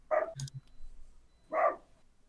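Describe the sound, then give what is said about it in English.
A dog next door barks unhappily: two faint, short yelping barks spaced about a second and a half apart, with a brief click between them. “Someone has got an unhappy dog. That's the dog next door that's yelling.”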